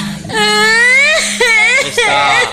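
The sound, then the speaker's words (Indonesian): A young child cries in three loud, tonal wailing bursts. The pitch wavers and bends, and each new wail starts sharply after a short break. “Kok nangis ngapa?”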